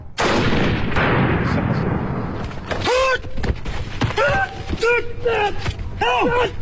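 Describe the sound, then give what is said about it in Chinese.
Many sharp reports of gunfire ring out during an armed police special forces field drill on a rainy plateau training ground at 3,500 metres. The firing is densest at the start and continues under talk. “武警昌都支队一大队特战一中队海拔3500米的野外训练场上，官兵们正在冒雨进行防空演练，在突破300米障碍后，对两伙暴恐分子实施围捕和狙击。”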